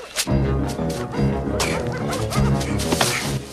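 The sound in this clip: Tracking dogs bark during a manhunt through hilly woods. Yelping barks sound among a dense, loud, continuous wash of other sound.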